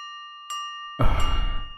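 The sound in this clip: Hand bell struck hard by a ritual master: a clear, sustained metallic ringing tone that holds steady, then a loud, rough noisy burst joins it about halfway through.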